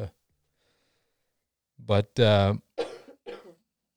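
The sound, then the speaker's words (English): A woman who has been fighting a long cold coughs in a few hoarse, voiced bursts after a silent stretch. The second burst is the longest and strongest. “coughing in the background, that's because she has been fighting a cold for a long time now.”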